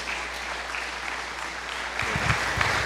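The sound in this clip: Audience applause at a Missions Sunday church service welcomes a guest minister to the front. The clapping is loud and steady, thickening slightly partway through with a few low thumps.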